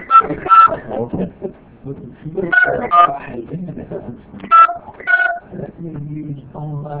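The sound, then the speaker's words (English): Telephone keypad dialing tones: a few short electronic beeps sound amid ongoing conversation as someone redials a call, the tones partly overlapping the voices. “Okay, let me try calling again. Yeah, dial one.”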